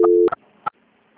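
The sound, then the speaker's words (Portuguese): Telephone line tone during a call transfer: a short steady low tone, then two brief bursts and a faint, quiet line. “Fica na linha. Obrigada. Transferência.”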